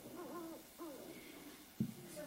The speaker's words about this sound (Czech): Sova, výborně.